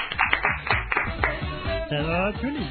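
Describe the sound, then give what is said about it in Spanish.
Rhythmic hand clapping from a carnival singing group performing in a radio studio, sharp claps at a steady beat mixed in with several voices singing together. “¡Un aplauso! ¡Muy bien!”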